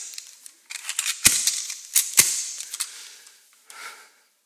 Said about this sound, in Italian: Pistola Luger Parabellum 8 mm, sempre oliata, pronta.